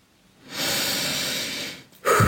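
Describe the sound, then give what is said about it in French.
A single long, breathy exhale lasts over a second, hissy and steady. An abrupt louder sound starts right after it at the very end. “je respire”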